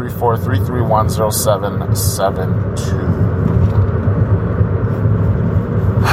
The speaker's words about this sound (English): I am currently driving, and this is always fun, you know that.